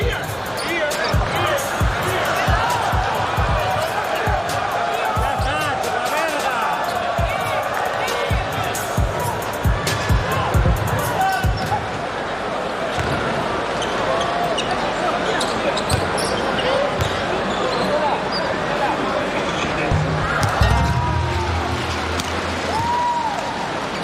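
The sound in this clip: A basketball bounces ahead of a technical foul free throw at a game involving China's team, after a head coach's ejection. Repeated thuds sit under continuous crowd hubbub, with commentators talking throughout.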